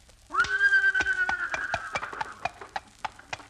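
A horse pulling a buggy sets off with a long whinny, then a steady run of clip-clop hoofbeats that continues as the neigh fades.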